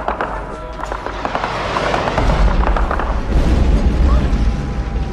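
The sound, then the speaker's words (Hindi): A rocket strike explodes nearby during fighting, with people sheltering in a bunker: a heavy low rumble swells after about two seconds and holds beneath dense, continuous noise and voices. “ओह, यहीं कहीं करीब rocket मारा।”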